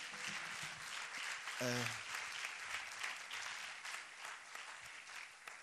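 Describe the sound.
Audience applause at a live music and poetry concert in Níjar, Spain, 2009: sustained, even clapping throughout, with a brief voice cutting in near the start.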